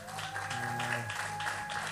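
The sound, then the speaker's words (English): Audience clapping for the bishop at a church service. Even, continuous applause runs under sustained musical tones from start to finish. “Can we clap for them?”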